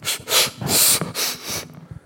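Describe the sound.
Deep breaths from a person exhaling, a run of several breathy, hissing rushes of air with short gaps between them, fairly loud and with no talking.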